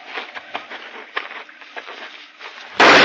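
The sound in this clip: A gunshot in a radio drama set on a hunting trail: faint rustles and soft patter lead up to one sudden, loud, sharp blast at the very end.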